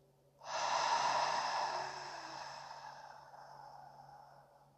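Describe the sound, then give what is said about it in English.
A slow, deep breath drawn in during a guided relaxation exercise: one long airy rush that starts abruptly, is loudest at first, then slowly fades over several seconds, with no talking. “So let's breathe together now that you're comfortable. Breathe in.”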